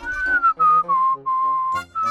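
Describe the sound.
Whistling by a person, a short melodic run of several sustained notes broken by brief gaps, fairly loud and clear with no talking.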